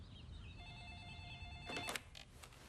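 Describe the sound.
A telephone rings with a short electronic warbling tone over a constant low background hum, followed by a few brief sharp bursts.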